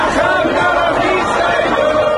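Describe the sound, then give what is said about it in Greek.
Crowd noise from many people gathered among the rubble of apartment buildings in Gaza to watch a World Cup match, a loud, continuous mass of overlapping voices and chatter with no clear words. “Ανάμεσα στα συντρίμμια πολυκατοικιών, πλήθος κόσμου στη Γάζα παρακολούθησαν την αναμέτρηση.”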